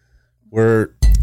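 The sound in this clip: Glasses clinking together in a toast: one sharp, loud clink right after a brief moment of talk.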